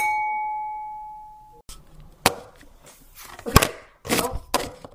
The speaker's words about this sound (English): Mic drop.